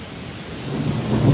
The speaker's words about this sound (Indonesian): Tetesan air langit itu tak berhenti memukul-mukul jendela kaca sebelah meja kerjaku.